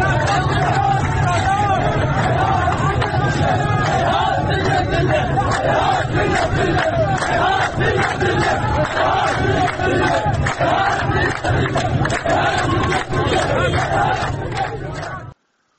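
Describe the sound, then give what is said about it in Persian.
Protesters gathered outside the home and office of Dasht-e Azadegan MP Qasem Saedi in Khuzestan chant the slogan "Hayhat minna al-dhilla", a loud, continuous crowd chant with shouting voices layered throughout. “در یکی از این ویدیوها نشون داده میشه که مردم معترض مقابل منزل و دفتر قاسم ساعدی، نماینده دشت آزادگان، تجمع کردند و شعار هیهات من نزل سر میدن. با هم بشنویم صدای اعتراضات رو.”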